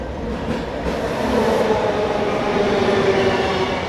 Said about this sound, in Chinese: 南投，南投站到了。